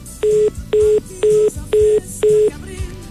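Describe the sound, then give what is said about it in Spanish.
Touch-tone keypad beeps as a dropped phone call is redialed: five even, steady tones in a regular rhythm, each about a quarter second long, over a faint background hiss. “se fue la comunicación. Le volvemos a marcar para explicarle”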